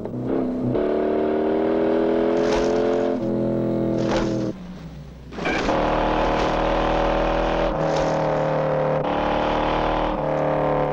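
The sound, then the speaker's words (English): A sedan's engine roars as the car speeds down a long hill, swerving now and then. The loud, continuous drone shifts in pitch, dips briefly midway and then surges back, with a few sharp bursts cutting through. “The sedan is now piling down a long hill, swerving periodically to avoid joining traffic.”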